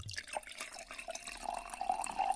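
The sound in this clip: Liquor is poured into a glass as a faint, steady trickle of liquid with soft splashing and a few small drips throughout.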